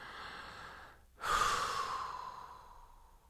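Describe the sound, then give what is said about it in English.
A single deep exhalation during a meditation breathing exercise, with the outward breath blown sharply after a near-silent pause, then slowly trailing off into quiet over about two seconds. “while you do this, you imagine you are dropping or blowing out all of your mental activity. Then hold your breath at the end of expiration like this.”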